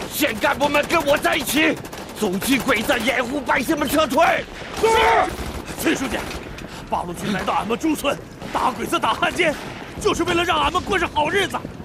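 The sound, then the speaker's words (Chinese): Gunfire in a radio drama battle as invading soldiers attack a village, rapid bursts of shots running throughout beneath loud, urgent shouting voices. “崔书记，子弹快打没了！”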